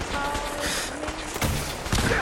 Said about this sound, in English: Yeah, I'm just blowing up power armor. I'm loving my missile launcher.